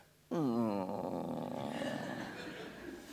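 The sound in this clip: A human voice imitates a dog growling during a church sermon: one sustained, rough, wavering growl that starts abruptly, stays low and throaty, then slowly fades over about three seconds.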